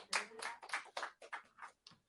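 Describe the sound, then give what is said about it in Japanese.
A church audience claps in thanks to God to close a service, a short, faint, uneven run of several distinct hand claps that trails off. “じゃあ神様に感謝の拍手をして終わりたいと思います。”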